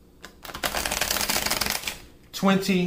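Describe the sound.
Tarot cards are shuffled for a reading: a dense, rapid riffling and rustling runs for nearly two seconds, followed by a brief voice.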